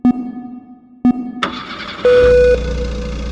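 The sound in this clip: A Nissan GT-R Nismo engine starts up in a racing video game after two short, sharp menu beeps. It settles into a low, steady rumble, with a brief higher tone sounding over it.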